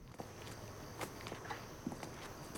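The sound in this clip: Footsteps of a woman walking reluctantly toward a porch-lit house at night, a few soft, irregular steps over a low steady background.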